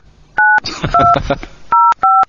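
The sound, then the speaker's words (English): Telephone keypad dialing tones: four short, steady dual-tone beeps, evenly loud, with a burst of rough, voice-like noise between the first and second. “this is me dialing in Mick's number, so just hang in there, man”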